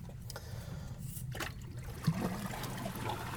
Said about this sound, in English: I'm going to paddle a little bit here.